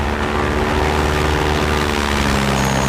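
An aircraft flying overhead gives a steady, loud propeller drone with a low humming tone that holds unchanged from start to finish.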